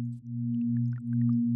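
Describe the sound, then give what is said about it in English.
A binaural beat tone signals an immersive app launching: two steady low tones hum continuously with a slight pulsing, while faint, brief bleeps and chirps flicker above them. “The sound you are hearing there is a binaural beat, which Helen uses to signal the app launching.”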